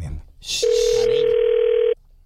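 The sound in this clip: A steady telephone dial tone sounds as a call is placed, holding one unchanging pitch for just over a second before it cuts off abruptly after a short burst of noise.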